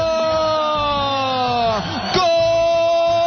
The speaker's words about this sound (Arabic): جول اول الحواني من فجروا، الجماهير جنت جنة جنون ملعب بيت لايا